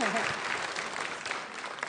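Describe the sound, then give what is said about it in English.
Audience applause for a conference panel: a steady, fairly quiet wash of many hands clapping that lasts throughout. “Let's give everybody a round of applause on this panel.”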